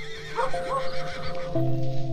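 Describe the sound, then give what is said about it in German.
A horse neighing excitedly on a paddock: one loud, sustained whinny with a wavering, harmonic tone that lasts about two seconds, heard alone without talk. “Doch Jules wiehert aufgeregt.”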